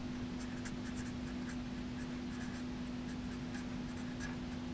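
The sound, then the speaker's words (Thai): Writing on a sewing pattern piece, the front upper bodice of a dress, as a pen or pencil marks a label: faint, light scratching strokes over a steady low hum. “ส่วนตัวนี้คือชิ้นหน้านะคะชิ้นหน้าด้านบนของชุดติดกันนะคะเราต้องเขียนเอาไว้นะคะเพื่อเราจะได้ไม่ลืมนะคะ”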